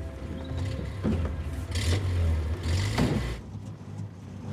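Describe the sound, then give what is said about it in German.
A bus engine driving off, a low rumbling drone that swells louder, with bursts of airy hiss around it. “Rebecca und die Banker steigen in Helens Bus.”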